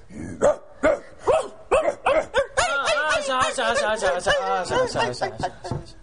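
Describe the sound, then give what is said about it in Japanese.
A dog barks at night around half past midnight while someone records at home: a series of sharp, evenly spaced barks, loud and clear, followed by continuous overlapping barking mixed with talk. “ラジオ撮ってる最中に犬が”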